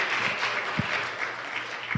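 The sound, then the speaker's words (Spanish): Applause from a church audience during a Spanish-language sermon: a soft, steady patter of many hands clapping, with a couple of low thumps breaking through. “Les tengo dicho que si van a aplaudir al Señor, lo aplaudan con ganas.”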